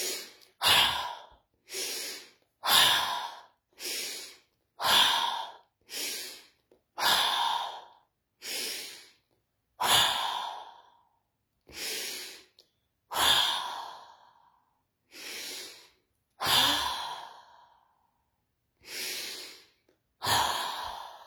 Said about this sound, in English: So the modified lion's breath, it comes out with an ha, aha.